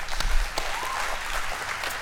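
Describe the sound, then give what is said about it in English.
Audience applause as two people are welcomed onto a stage during a church message: a brief, dense burst of many hands clapping, steady and fairly loud throughout, with no voices over it. “Put your hands together and welcome Corey and Zach to the stage, would you please?”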